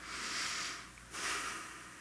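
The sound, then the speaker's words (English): A deep breath, drawn in as a long, soft, airy hiss and then let out in a second breathy rush after a brief pause, quiet and alone. “I just want to take a deep breath.”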